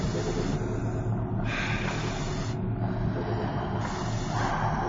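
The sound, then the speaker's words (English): A person taking deep breaths: a few long, rushing, noisy breaths in a slow, steady cycle, fairly loud and alone without talk. “Just take deep breaths.”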